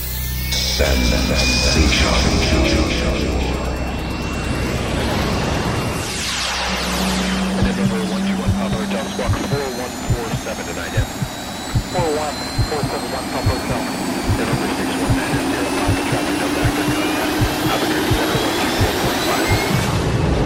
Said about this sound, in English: Fasten your seatbelts and prepare for takeoff.